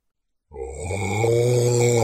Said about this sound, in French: Rugit le dragon dans un souffle enfumé.